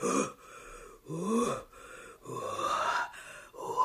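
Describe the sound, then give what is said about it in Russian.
A horse breathes warm breath onto a cold boy in a forest. Several heavy, rasping exhalations with a low groaning edge are separated by short pauses. “Вот так теплее стало? Да, да, дыши еще на меня, добрая лошадь.”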